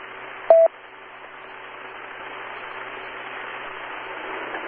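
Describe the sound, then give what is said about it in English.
A short, loud electronic tone burst as a cell phone call comes in during an amateur radio Echolink link, followed by steady radio static that slowly builds in level. “Yeah, I had a phone call. It's interesting when a phone call comes in on my cell phone at the same time I'm on Echolink.”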